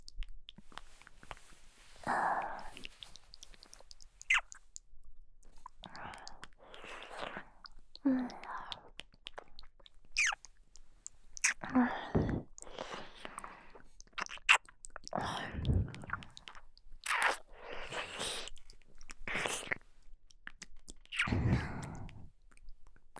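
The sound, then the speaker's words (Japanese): Wet ear-licking and mouth sounds in close ASMR style come in many separate bursts. The soft slurps and smacks are spaced irregularly and alternate with brief quiet gaps, without any clear speech. “こうしてお耳などを舐めて興奮していただきます。”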